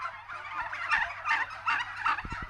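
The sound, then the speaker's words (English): An American bronze turkey gobbles on a turkey farm near Kells in County Meath, giving a few loud, rapid, warbling gobble bursts followed by a few short low thumps near the end. “That's the sound of an American bronze turkey.”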